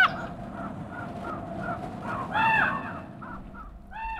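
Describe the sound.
Ravens calling in the small coastal town of Sitka, Alaska, set among snow-capped mountains and old-growth forest: a long series of hoarse, croaking caws at an uneven pace, a louder burst in the middle, over faint background noise.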